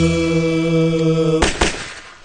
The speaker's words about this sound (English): That guy sure does like to shoot his weapon in the air.